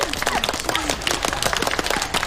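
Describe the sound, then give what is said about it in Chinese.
Group applause congratulating a cast member named for a lead role in a provincial showcase of Liang Shanbo and Zhu Yingtai. Dense, rapid clapping runs steadily and fairly loud from start to finish, with no clear pause. “来大家鼓掌祝贺一下”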